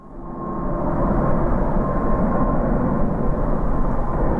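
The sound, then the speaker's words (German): A Swiss airliner from Dubai gliding in shortly before landing over a new residential district near the airport, its broad low engine roar swelling during the first second, then holding loud and steady throughout. “Die Swiss-Maschine aus Dubai gleitet kurz vor der Landung über den neuen Stadtteil von Opfikon-Glattbrück.”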